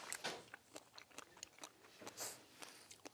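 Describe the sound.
Faint, moist crunching as someone bites into a strawberry and chews it, with a few irregular bites followed by softer mouth sounds and no talk.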